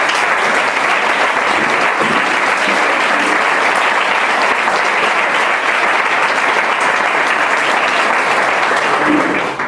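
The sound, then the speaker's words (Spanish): Audience applause at a Socialist party campaign presentation in Chiva, with the crowd clapping for the accompanying candidate list. Loud, dense, steady clapping runs continuously for the whole clip and stops at the very end. “Pido un aplauso para la candidatura que me acompaña.”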